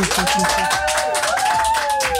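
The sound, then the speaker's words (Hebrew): Rhythmic clapping from a group of women on a game show, steady beats keeping time over tuneful music and voices. “שימו, שימו עוד כפיים, בנות.”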